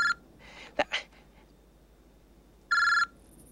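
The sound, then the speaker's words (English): A mobile phone rings in two short bursts of bright electronic tone, the first clipped at the start and the second near the end, with a quiet stretch and faint breathy noises between them. “It's Mitch's phone ringing. Well, that's my wife. I really should take this.”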